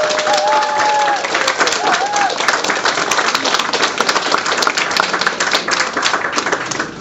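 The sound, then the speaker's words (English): Audience applause welcomes two guests at a live event, a loud, dense and steady clapping that fills all seven seconds without a break. “So, without further ado, can we please give a big welcome to David Wickes and Sue Davis?”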